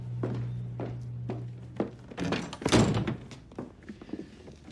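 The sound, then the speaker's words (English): Dull thumps of a jammed women's toilet door in a bar being pushed from outside: a few soft knocks, then a louder, rattling burst of banging, fading into lighter taps. “strides towards the women's toilet, but the doors jam from the inside.”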